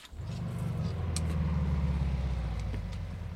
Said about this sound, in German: Ich werde einen Motor kurz schließen.